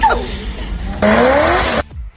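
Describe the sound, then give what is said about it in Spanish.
A Mazda RX-7 car engine revs hard, its loud note climbing steadily in pitch for about half a second after a quieter engine passage, then cutting off abruptly into near silence. “Un Mazda RX-7. Madre mía, qué sonidillo. Parece un platillo volante esto.”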